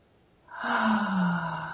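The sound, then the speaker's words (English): One slow, deep breath drawn during a guided relaxation exercise. It rises from near silence into a long, breathy rush with a faint low hum underneath and lasts just over a second. “Nice deep breath.”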